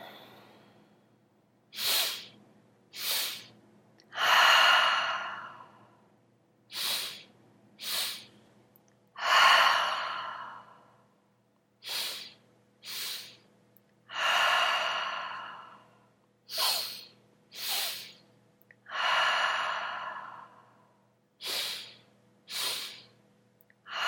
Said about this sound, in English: Take a deep breath in, clearing out your nose.